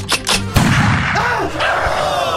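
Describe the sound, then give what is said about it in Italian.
A single sharp gunshot, fired at a cameraman, bursts out suddenly and is followed by a sustained, noisy rumbling tail. “Ma che cazzo ha fatto? Ha sparato a un nostro cameraman.”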